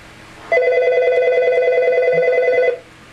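Incoming call ringing on a radio call-in phone line: one long electronic ring of just over two seconds. The steady, buzzy tone has a fast fluttering pulse and sounds loud on its own.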